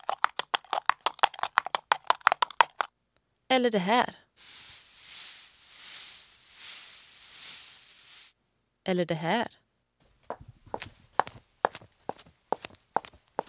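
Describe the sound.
Foley effects performed by a foley artist in a studio in Trollhättan: quick footstep-like taps, then a long, steady, rustling hiss, then more scattered taps. A voice briefly speaks between the effects.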